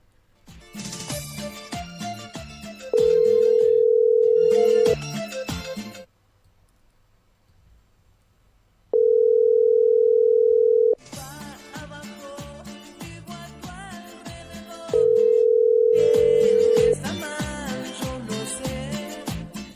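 A telephone rings out on a call that goes unanswered: three long, steady beeps of about two seconds each, evenly spaced, with other busy sound filling the gaps between them.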